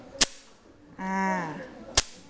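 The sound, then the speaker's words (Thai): Two sharp, bright cracks of a Thai krap phuang wooden clapper struck against the hand, spaced well apart, each loud and very brief. “อันนี้ก็คือกลับพวง”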